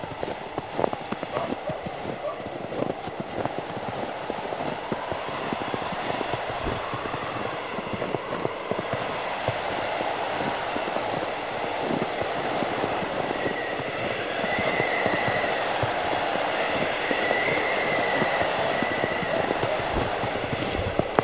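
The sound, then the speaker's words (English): Footsteps walking across ice in snow, a steady run of crunching steps that continues throughout over a constant rushing noise. “You walk away from the plain of ice. Towards the security of your igloo in the distance.”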